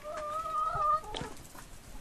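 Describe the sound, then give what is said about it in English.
Leghorn hens clucking: a faint, drawn-out tonal hen call, then a few short, soft clucks over a low background hiss. “I love the leghorns, actually. They're such a cute hen.”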